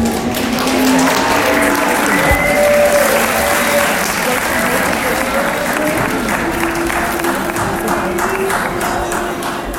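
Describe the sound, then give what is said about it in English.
Audience applause in a movie theater at the end of a film: dense, continuous clapping at a steady, fairly loud level, with faint voices mixed in. “Yet, most of the people that were in the theater applauded at the end. Go figure.”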